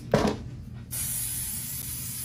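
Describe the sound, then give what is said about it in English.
Spray misting onto feet: a short thump, then a steady, bright hiss from the spray can that carries on evenly to the end. “So okay, you take this spray, you spray it all over your feet.”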